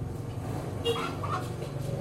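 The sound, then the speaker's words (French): Hens clucking in a quiet army barracks in Banda Aceh, Indonesia: a few soft, brief clucks near the middle over a steady low hum. “Seules les poules donnent le ton.”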